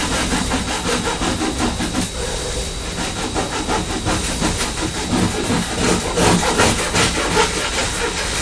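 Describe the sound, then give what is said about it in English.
A knife saws through a fresh loaf of bread in a steady run of rough, rasping back-and-forth strokes, loud and continuous with no talk. “let's slice this lovely fresh loaf of bread, shall we?”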